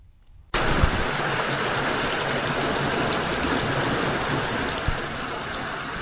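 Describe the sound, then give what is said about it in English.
Heavy rain falls during flooding in Kenya, a dense, even hiss that starts abruptly after a brief quiet moment. It then holds steady and loud to the end, with no voices. “That is the sound of rain.”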